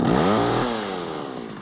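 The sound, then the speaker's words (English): A chainsaw held by a supposed doctor about to open a patient's chest: a loud buzzing rev holds briefly, then winds down in pitch and fades over about a second. “What are you going to do with that chainsaw?”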